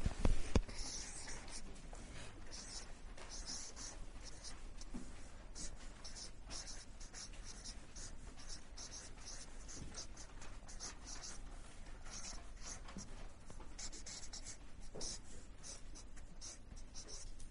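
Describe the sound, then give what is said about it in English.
Writing by hand scratches along in many quick, faint strokes with a busy, irregular rhythm for the whole stretch, soft and dry with no clear talk over it. “Okay, it's pretty key we write that. Okay, I'll write it up here as well.”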